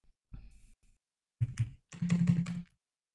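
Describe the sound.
Someone types on a computer keyboard whose keys jump erratically and won't produce characters, giving three short bursts of muffled key clatter separated by brief pauses. The last burst is the longest and densest, with no voices.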